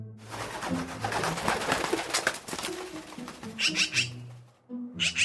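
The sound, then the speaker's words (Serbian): Bird calls attributed to a magpie, with low, cooing tones and a few short, harsh bursts of higher calls toward the end over quiet background noise. “Pero, Pero, vidi, došao nam je svraka. Sad je otišla.”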